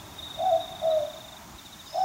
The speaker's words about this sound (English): But what's really cool is that when it grows up to be an adult boobook owl, it will sound like this.